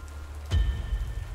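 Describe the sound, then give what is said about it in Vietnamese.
Heavy rain falling in a steady, dense hiss, with a low thump partway through and the downpour continuing afterward. “Mưa bắt đầu lớn dần.”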